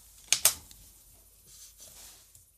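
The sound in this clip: Computer keyboard typing while someone writes text: two sharp, crisp keystrokes close together, then a few fainter scattered taps over a quiet background.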